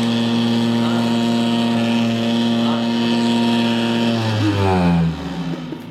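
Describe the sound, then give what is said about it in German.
A vibrating device, switched on and turned up to high intensity, gives a loud, steady, harmonic buzzing hum. Its pitch shifts near the end before the sound drops away. “dann schaltest du es ein und dann kannst du hier drehen zwischen der Vibration. Dann kannst du da richtig Gas geben.”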